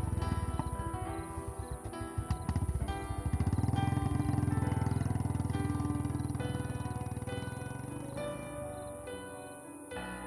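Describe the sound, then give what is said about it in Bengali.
A motorbike engine starts with rapid chugging pulses, then revs into a steady low drone as the bike rides away, the sound slowly easing toward the end. “Atin পিছন থেকে ওকে যেতে দেখার পর মুচকি হেসে bike start দিয়ে বেরিয়ে পড়ে নিজের বাড়ির উদ্দেশ্যে”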